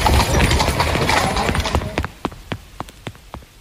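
Hooves of a horse pulling a black carriage in heavy rain clip-clop on the road, first blurred under dense rain noise, then slowing into distinct, evenly spaced hoofbeats as the carriage draws to a stop.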